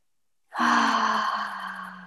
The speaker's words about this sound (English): So take three deep full breaths.